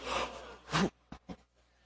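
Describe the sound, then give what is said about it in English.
An audience gasps together on cue during a retelling of the Good Samaritan story. A soft breathy swell is followed by a sharper collective intake of breath, then two short faint sounds, all quiet. “You're the crowd. You're sitting down. And you're going to gasp when I get to that word, all right?”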